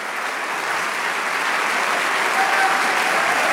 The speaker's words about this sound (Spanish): Si ese aplauso es para el Señor más fuerte.